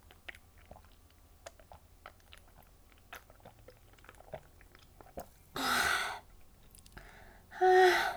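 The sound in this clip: Faint chewing and biting on food makes many small, irregular wet clicks at low volume. Two louder breathy exhales come near the end.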